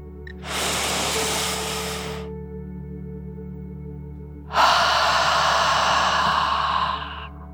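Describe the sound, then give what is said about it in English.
Deep, slow breath in and then out, as in a children's bedtime relaxation exercise: a long airy inhale, a pause, then a longer, louder, rushing exhale, with no talking. “take one more deep dragon breath in and out”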